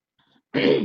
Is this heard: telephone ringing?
no